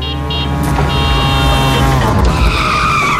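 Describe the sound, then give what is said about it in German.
A tuk-tuk skids with a loud, sustained tyre squeal over the revving of its engine, and the harsh screech holds for the whole stretch. “Wenn das Tuk-Tuk durch Deutschlands Bigste Beats fährt,”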